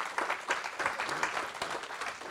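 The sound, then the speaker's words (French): Steady audience applause, dense and even clapping that holds at a moderate, fairly faint level throughout without a clear peak or fade. “on peut applaudir.”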